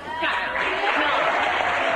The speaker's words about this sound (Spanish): Y el aplauso, vale, el aplauso de un montón de adultos.